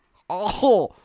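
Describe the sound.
A single short throat clearing, a brief voiced rasp lasting about half a second that rises into a stronger final push, heard alone against silence.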